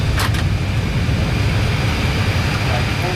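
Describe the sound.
An airliner's engines 1 and 2 being shut down after parking, heard as a loud, steady low rumble with a thin, constant higher whine above it.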